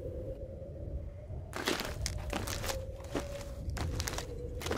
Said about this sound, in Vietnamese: Tiếng bước chân người lại vang lên, lại tiếng gót giày nệm ở ngoài thềm